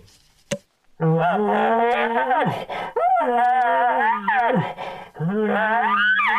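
A dog moans and whines in frustration, giving three long, drawn-out vocalizations whose pitch bends up and down, like a howling groan, after a brief click at the start.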